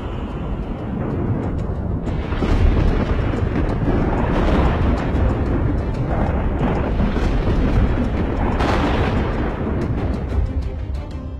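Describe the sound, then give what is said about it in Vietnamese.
Thunder crashing with lightning strikes: a continuous heavy rumble with a few sharper, brighter swells rolling through, loud and unbroken, with no voices. “Chỉ thấy hàng loạt những tia sét đánh đùng đùng xuống bầy ma khỉ.”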